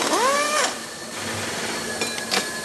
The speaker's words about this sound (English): A worker opens the metal mold with a power wrench.